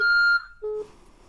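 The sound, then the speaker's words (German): A voicemail beep signalling the start of recording: a clear, high electronic tone held briefly, then a shorter, lower tone, both clean and moderately loud over near-silence. “Sie können eine Nachricht nach dem Signalton hinterlassen.”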